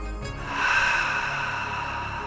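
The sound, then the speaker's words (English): A deep breath drawn in during a breathwork exercise, a sustained airy hiss that swells slightly and then holds steady for a couple of seconds without any speech. “So go ahead and inhale. And again.”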